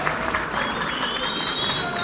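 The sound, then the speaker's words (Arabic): An audience at a political party gathering gives warm applause, a steady, dense patter of many clapping hands that lasts a couple of seconds. “وأنا هوني كنقول لكم كان نجحنا في سوسة، نحب تحية خاصة ليهم ونحب تصفيقة حارة ليهم”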